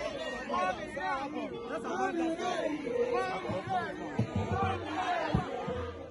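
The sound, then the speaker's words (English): Supporters crowd together at a 2023 Nigerian Senate campaign, a dense mass of raised voices overlapping in enthusiastic chatter and calls. A few low thumps break through near the end. “That's the sound of enthusiasm and hope from her supporters during her 2023 campaign.”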